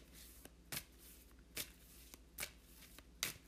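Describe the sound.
Crystal Kingdom oracle cards are shuffled before a draw, in several brief papery riffles and slaps at uneven intervals. The sound is very quiet, with no talk over it.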